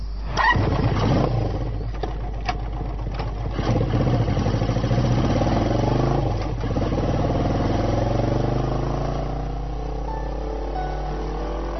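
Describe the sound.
A motorbike engine runs for the whole clip as the bike is ridden, a loud, steady droning rumble whose pitch shifts slightly as the throttle changes, with no speech.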